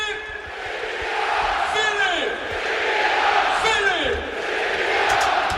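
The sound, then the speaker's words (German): Football fans in a stadium roaring and chanting as they celebrate an SC Paderborn goal, a loud, sustained crowd cheer that swells and holds throughout. “1500 weiß gekleidete Gästefans müssen den Torjubel des SC Paderborn ertragen. Und den hören wir uns da jetzt mal an.”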